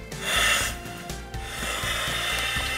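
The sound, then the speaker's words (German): Rough, continuous rasping and scraping as a seal housing is screwed back together during a firefighters' chemical-protection exercise. Louder in the first half, briefly dipping, then steady to the end, with no talk. “Wir hatten die Dichtung gerade rausgenommen. Ja, aber ist der neue schon drin. Na, wir schrauben jetzt wieder zusammen.”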